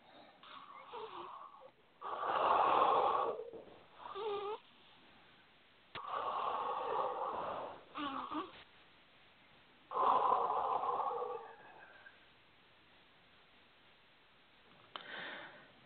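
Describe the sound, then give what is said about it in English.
Slow, deep breaths drawn in and let out with an airy, slightly wheezy rush. A few long, loud breaths are separated by quiet pauses, followed by a shorter breath near the end. No talk is heard. “take three nice deep breaths”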